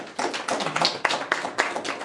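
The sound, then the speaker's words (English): A smattering of applause from an audience seated in a room: scattered, uneven hand claps lasting about two seconds, moderately loud, with no voices. “Again, a smattering of applause for Bob from Brownsville, Texas.”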